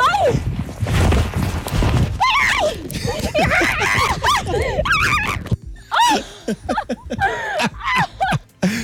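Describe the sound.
A young woman wrestles a sheep at a zoo to give it medicine: repeated, strained animal cries and vocal sounds rise and fall in bursts over scuffling, with people's voices mixed in throughout.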